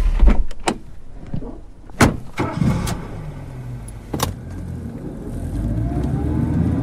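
Passengers climb into a taxi: a few thuds and clicks of car doors come first, then a low engine rumble swells as the cab pulls away, with a faint rising engine whine.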